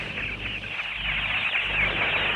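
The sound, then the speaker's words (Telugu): Koels and other forest birds sing in a green, grassy forest, forming a dense, continuous chorus of bright chirping that stays steady and fairly loud throughout, with no voices. “అదిగో కోయిలలు కూడా మధురగానం చేస్తున్నాయి.”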